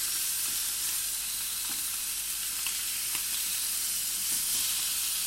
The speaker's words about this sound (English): Now I've cooked these for about 4 minutes on each side, so I've done one side. I'm just going to flip those.